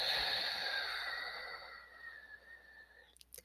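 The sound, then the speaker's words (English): A deep breath is exhaled fully out of the mouth during a guided belly-breathing exercise, a soft, airy rush that fades gradually over about two seconds before a quiet stretch with a few faint ticks. “Inhale, noticing the belly raise. Exhaling completely out of the mouth.”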